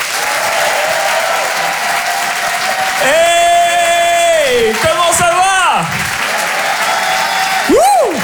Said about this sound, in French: Faites un maximum de bruit, s'il vous plaît, pour Nick Mukoko.